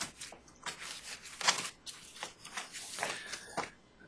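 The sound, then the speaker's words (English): Paper pages are flipped through in quick succession, giving many soft, crisp rustles and flicks at an uneven pace. The sound is faint throughout. “I'm flipping through some pages here to find a particular page.”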